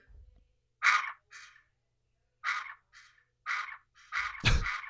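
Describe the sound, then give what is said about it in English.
A duck quacks in a series of short, nasal, raspy calls, some coming in quick pairs, ending with a low thump. “What animal is that? It's a duck quack.”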